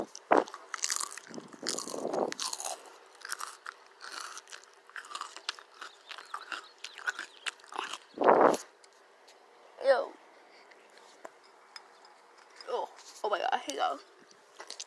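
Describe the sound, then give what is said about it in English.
Crisp crunching as plain lettuce is bitten and chewed up close in an ASMR-style eating session: a few louder snapping bites stand out against quieter, softer chewing and rustling. “I will eat salad, but I prefer lettuce by itself. Like, I'm eating it right now. I'm also going to do some ASMR for you guys.”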